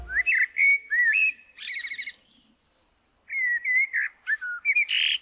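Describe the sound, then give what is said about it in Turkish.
A blackbird sings at dawn: clear, fluty whistled phrases ending in higher twittering flourishes. Two bursts of song are separated by a short silence, bright and loud with no other sounds. “Dinlediğiniz bir kara tavuğun şarkısıydı.”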